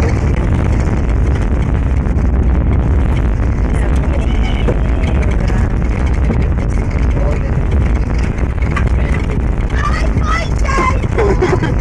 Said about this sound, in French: Voyage en bateau avec les fils de Kennedy, Montauk, août